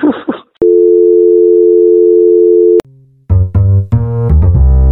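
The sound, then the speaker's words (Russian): A telephone tone plays while a call is being placed. It is a single long, steady electronic tone lasting about two seconds and is followed by other tonal sounds. “Дальше я позвонил Мусе.”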